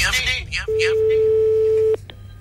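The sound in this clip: Telephone ringback tone during an outgoing call, a single steady pure tone lasting just over a second, preceded by brief talk and followed by a faint click and quieter line noise.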